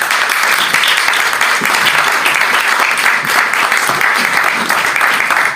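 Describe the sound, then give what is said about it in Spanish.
Audience applause at a live theater event, a dense, steady wash of many hands clapping that stays loud and even from start to finish with no break. “Luisa María Martínez de Escapararte, para quien pido un aplauso ahora.”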